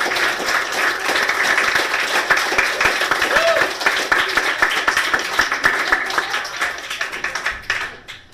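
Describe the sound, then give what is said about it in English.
Audience applause welcoming a poet to the stage at a reading, steady and full at first, then thinning into separate claps that fade out at the end. “Please give it up for Sheila Carter Jones.”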